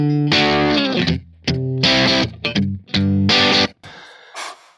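Boosted electric guitar tone from a Kemper Profiler: loud, distorted chords played in several short bursts with brief gaps between them, ending on a faint, fading strum.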